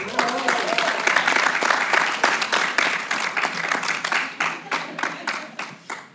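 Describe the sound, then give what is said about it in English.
A studio audience at the 2018 Kids Conference applauds an arriving guest with dense, steady clapping that thins toward the end into scattered, distinct claps. A voice is heard briefly near the start. “Give it up, studio audience, for a true literary great, the one and only J.K. Rowling.”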